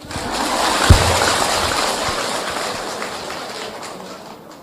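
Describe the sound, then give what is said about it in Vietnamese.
Audience applause at a Buddhist monk's talk about love: a dense, steady patter of clapping that fills the whole stretch and slowly softens toward the end. “Không ra hơi mà cũng vỗ tay nữa.”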